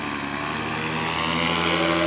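A homemade motorized flying sleigh takes off with a loud, steady propeller-engine drone, a dense, buzzing roar that grows slightly stronger toward the end, with no voices.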